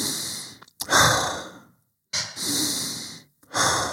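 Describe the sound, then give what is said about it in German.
Slow, deep, relaxed breaths during a guided relaxation exercise: long, airy rushes of air, separated by short silent pauses, with the last breath cut off at the end. “Atme mal entspannt dreimal tief ein.”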